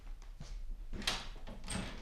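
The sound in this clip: A door being unlocked and opened with its latch key: a few soft clicks and scraping knocks spaced across the moment, fairly quiet, with no voices.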